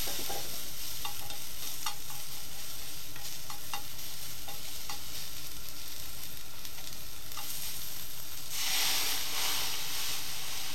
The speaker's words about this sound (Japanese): うち強火なんだよな。あんま炒めすぎるとダメになる。